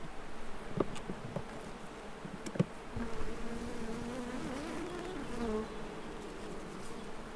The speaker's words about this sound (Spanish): La abeja deja de ser una ninfa y pasa a ser una abeja adulta. En el momento en que la abeja está lista, nace al exterior. Y vamos a ver nacer una abeja.